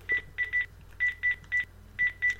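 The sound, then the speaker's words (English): A smartwatch dials a phone number with eight short, bright keypad beeps of steady pitch, grouped three, three, then two, over a faint low hum. “So I'm going to dial my number again”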